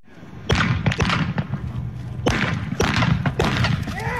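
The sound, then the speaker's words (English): Several sharp gunshot bangs from the sport of mounted shooting, fired at irregular intervals over a constant low rumbling background. “if you've never heard of the sport of mounted shooting, take a listen to this.”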